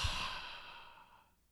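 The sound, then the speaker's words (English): A single long, deep exhale during a progressive muscle relaxation exercise: breathy and airy, strongest at the start, then fading steadily over about a second and a half into quiet. “breathing in, holding 3, 2, 1, and then exhale, let it all out.”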